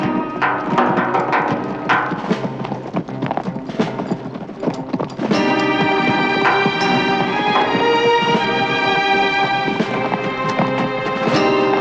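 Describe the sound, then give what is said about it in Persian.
Hooves clip-clopping as a group of riders on horseback sets off along a winding desert path, with quick, irregular clattering that gives way after a few seconds to steady sustained music. “کمی بعد نسیم بیک سوار اسب شده، با اشاره سر حرکت می کند و پشت سرش هم هفت برادران پیش می روند و وارد مسیر پرپیچ و خم صحرا شده و دور می شود.”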